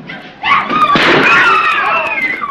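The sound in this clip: A single sharp gunshot fired into the air inside a room as guests move back. One loud crack cuts through strong sustained tonal sound.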